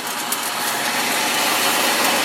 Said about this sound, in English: I'll plug the popper into the outlet. And now we just have to wait. That noise you hear is the motor